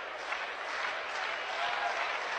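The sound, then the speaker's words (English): Faint crowd clapping from home Rebels fans at a college baseball game, a dense, steady patter that holds at an even level throughout. “Rhythmic clapping going up from the Rebel faithful, the 2-2.”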